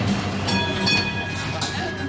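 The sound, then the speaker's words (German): Steady rumble of a tram rolling through Vienna, a dense continuous roar with faint high whining tones held throughout and a few soft swells in loudness. “Mit der BIM, wie die Wienerinnen und Wiener ihre Straßenbahn liebevoll nennen, geht es in den Südosten der Stadt zum Zentralfriedhof.”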